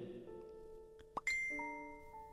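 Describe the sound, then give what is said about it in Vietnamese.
A telephone rings with an electronic chime tone, a few sustained pitched notes that step between pitches, faint and with no voices. “Chuông điện thoại rung lên, làm cho Vi”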